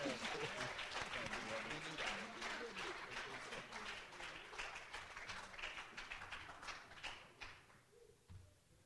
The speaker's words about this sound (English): Give God a big hand clap.